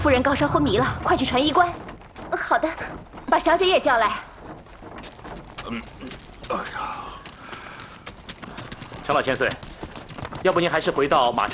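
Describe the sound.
Horse hooves clip-clop steadily as the horse is ridden on the march, under people talking almost throughout.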